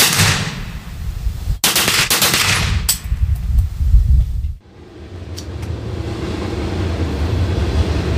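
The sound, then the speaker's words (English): A heavy rifle chambered for pistol rounds fires loud bursts of rapid automatic fire. The shots then break off and give way to a lower, rumbling background noise. “But still, this is just a pistol round in a heavy rifle. How hard is it to stay on target in automatic fire?”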